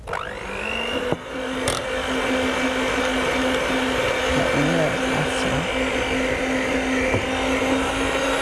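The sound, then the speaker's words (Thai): An electric mixer blends gel at its lowest speed setting, giving a steady, even whirring motor drone that holds constant for the whole stretch after a sharp click near the start. “ค่ะเดี๋ยวใช้ตัวนี้ช่วยนะคะเครื่องผสม”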